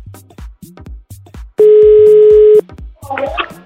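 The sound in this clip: A telephone tone while a call is being placed: a loud, steady, buzzing tone lasting about a second. It follows a run of short repeated low pulses, and a brief crackly burst comes after it.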